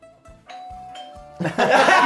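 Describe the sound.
A two-tone doorbell-style ding-dong chime sounds, with two clear sustained tones one after the other. A burst of noisy laughter follows right after.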